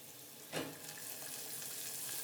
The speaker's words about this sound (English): Gonna cut my carrots, yeah, and then put it in the stir fry. Yeah. That's a good stir fry.